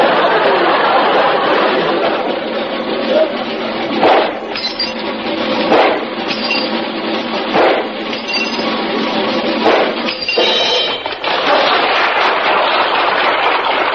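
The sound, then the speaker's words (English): Gunshots from a trick-shooting act fired at clay pipes mounted on a revolving wheel. A few sharp cracks stand out over a steady, dense wash of noise. “will attempt to shoot the tops off these clay pipes, which, as you can see, are attached to a revolving wheel”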